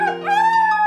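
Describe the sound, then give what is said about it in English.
A wolf howls in one short, smooth, harmonic tone that rises slightly in pitch and then holds steady. It is fairly loud and sounds alone. “but does anybody else hear a wolf howling?”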